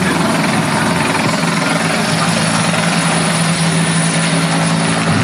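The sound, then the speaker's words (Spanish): Firefighting aircraft pass overhead at a wildfire, making a loud, unbroken rotor and engine drone that holds steady the whole time with no clear talk above it. “es que están pasando, ¿no?, varios medios aéreos y por eso la comunicación a veces se ve entorpecida.”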